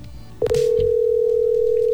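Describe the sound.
A telephone line tone as a call is placed to a prize winner: a brief click, then a single steady hum-like tone that holds unbroken and level to the end.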